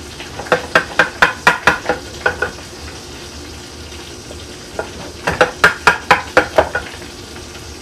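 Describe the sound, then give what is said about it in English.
Butter melts and sizzles in a pan, a soft hiss running underneath two quick runs of sharp, rhythmic scraping or stirring strokes separated by a short lull. “All right. Butter is starting to melt.”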